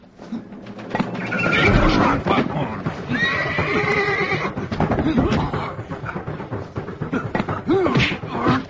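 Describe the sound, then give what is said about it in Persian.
Horses neighing, a procurator's horses in ancient Jerusalem: loud, wavering whinnies rise over a thick bed of clip-clop hooves, thumps and rustling, with another short whinny near the end. “داریم یابوهای قشنگ شما رو تماشا میکنیم جناب پروکراتور اعظم. مسخره میکنید؟ اصلا میخواییم تران باهاشون ببندیم به گاری.”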